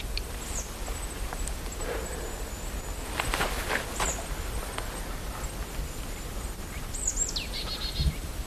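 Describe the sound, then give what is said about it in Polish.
Eurasian nuthatch calling: a few faint, high whistled calls over a steady hiss of background noise, with one call sweeping downward near the end. “Kowalik tam się odzywa. Taki tweet, tweet, tweet. To jest kowalik.”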